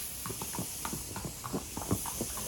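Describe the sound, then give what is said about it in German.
Hooves of a champion show-jumping sport horse walking back to the stable, a faint, irregular clip-clop of many steps over a steady background hiss. “Es geht für Torquato Tasso zurück in den Stall.”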